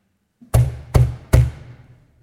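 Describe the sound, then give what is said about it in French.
Three heavy knocks strike the entrance door of a chapel during a funeral ceremony. Each loud thud is evenly spaced and leaves a short booming decay before silence. “on frappe 3 coups à la porte d'entrée”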